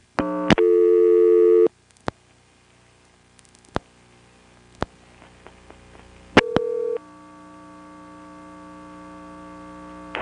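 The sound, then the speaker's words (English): Telephone line dialing the number 241: a steady tone at the start, a series of sharp clicks spread over several seconds, then another short tone, all over a constant low electrical hum. “Here's dialing 241.”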